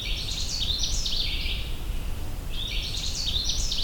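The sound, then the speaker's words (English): Canada warbler song from the Minister Creek Trail in Allegheny National Forest, Pennsylvania: two bright, rapid, high-pitched warbling phrases, one near the start and one near the end, over a steady low rushing background. “I'm pursuing a Canada warbler, a small, colorful warbler with a bright and cheery warbling song that sounds like this.”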